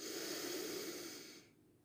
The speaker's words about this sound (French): Puis inspiration à nouveau en gonflant le ventre.